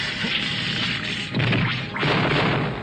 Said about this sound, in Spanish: Romperé un pedazo de este glaciar para bloquear la entrada.